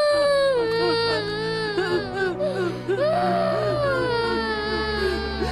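A person cries alone throughout, in a continuous wavering, high-pitched wail broken by catching sobs and whimpers.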